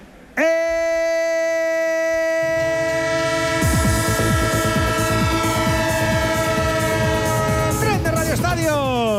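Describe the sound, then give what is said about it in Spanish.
A train sound effect used as a radio jingle: a loud multi-tone train horn blares continuously, joined after a few seconds by rhythmic rolling rail clatter, with sweeping tones near the end. “El tren de Onda Cero, claro que sí, es que todavía nos queda camino, es que no hemos llegado a la estación final.”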